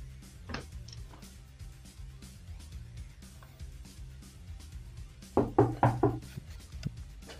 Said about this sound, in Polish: A zapuka do drzwi.